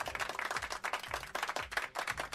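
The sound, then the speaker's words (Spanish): Canned applause sound effect, a crackly mass of clapping that surges and dips in quick repeated swells, fairly faint and with no voices over it. “Esos aplausos que me rompen los micrófonos, que me gustan tanto. O sea que os voy a dar yo uno de lata.”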